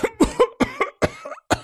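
A sick, bedridden emperor coughing in a harsh fit: about eight rough, explosive coughs in quick succession, each a short burst with brief gaps between, fairly loud and with no other voices.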